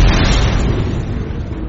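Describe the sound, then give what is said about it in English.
Cartoon explosion in space: a loud, sustained roaring blast of dense noise that holds steady for its whole length with no sharp attack and no voices. “I brought us in space so when you explode, you won't hurt anybody.”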